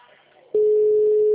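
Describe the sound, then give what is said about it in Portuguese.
A telephone busy signal cuts in abruptly on a call and holds as a loud, steady mid-pitched tone to the end, after a brief stretch of faint murmur. “Mas tá demorando pra cair. O número está ocupado.”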